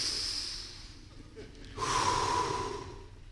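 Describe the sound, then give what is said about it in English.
A group breathes together in a long, airy rush of breath. It dips briefly, then swells into a second, louder sustained breath, and no words are spoken. “So let's just all breathe together.”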